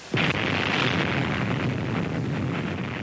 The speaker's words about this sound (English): You can hear that and you can also see it. I mean, you know, anytime you see a nuclear bomb exploding, it's just a ferocious sight.